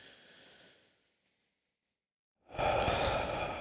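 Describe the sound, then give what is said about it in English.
A deep, calming breath taken in and let out: a soft airy hiss that fades into a moment of silence, then a louder, fuller rush of breath, heard alone with no talking. “Can we just take a calming, cleansing breath? I would love that.”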